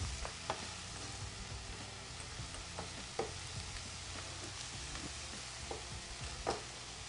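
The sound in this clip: Apples and spices sizzle quietly in a frying pan as they are stirred. The steady, faint hiss is broken by a few soft clicks and scrapes of the utensil against the pan.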